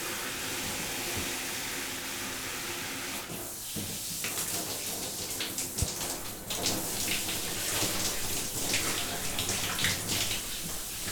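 Warm water runs from a faucet at a salon sink while hair is being wetted. It makes a steady, hissing rush with soft splashing variations that continues without a break.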